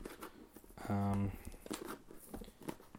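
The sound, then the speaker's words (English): Crinkling and tearing of a sealed package as stickers holding it shut are peeled open, a few short papery rips and crumples with a brief denser burst near the start. “All right, let's open this bad boy up. See what we got. Stickers are kind of hard to open.”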